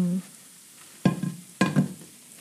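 Garlic frying gently in olive oil, kept from browning, is stirred in the pan, with a few scraping, clattering strokes over a faint sizzle and no talk.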